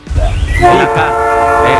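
A train horn blasts loud and sustained, a rich chord of harmonic tones that builds after a brief noisy onset and holds steadily to the end.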